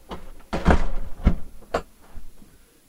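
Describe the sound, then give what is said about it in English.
A door is pushed shut, with a few dull thuds and knocks. The loudest thud comes near the start, followed by softer bumps that fade out. “Close that door.”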